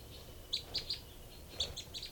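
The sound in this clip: High, thin chirps come from two birds, a female calling and another answering. They form two quick sets of three faint calls separated by a pause, over a steady background hiss.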